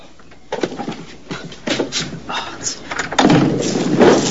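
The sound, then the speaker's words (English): An animal is put into a cupboard and the cupboard door is shut: a few dull bumps and knocks, with a firmer thud near the end. “He gets out of bed and picks up the animal and puts it in the cupboard.”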